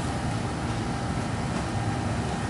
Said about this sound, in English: I'm just going to start the test here. So it's a simple test setup, which actually there's a wheel that drives it and it measures the torque of the wheel.